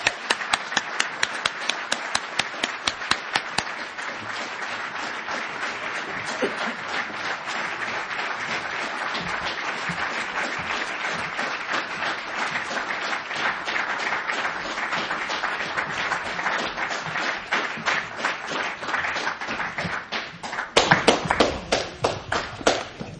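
Sustained audience applause welcoming guests at an evening event: dense, steady clapping from many hands that continues at an even level, then swells into a louder burst near the end.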